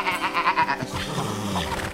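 An old goat bleats, a tremulous call with a rapid pulsing quiver at the start, followed by quieter, lower sounds.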